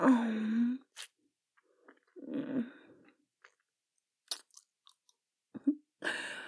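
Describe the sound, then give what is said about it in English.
Wet mouth sounds of a finger being licked come in a few short smacking bursts, with soft vocal sounds at the start and end and quiet pauses between. “Pull it out and lick it off.”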